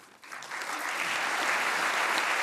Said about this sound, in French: Sous les applaudissements des professeurs du collège.